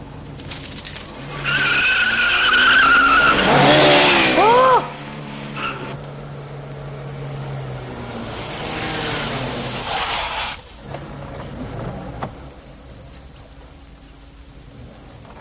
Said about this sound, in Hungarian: követ bennünket, egy kocsi próbálja meg lerázni, jó?